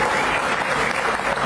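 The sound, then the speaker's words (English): Audience clapping to welcome guests joining a discussion: a short, dense burst of many hands applauding at an even, steady loudness from start to finish. “You can clap if you want to clap. Yeah. There you go.”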